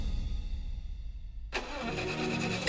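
A car engine overdue for an oil change, with built-up deposits, cranks and starts abruptly after a quiet opening, then settles into a steady, loud running hum.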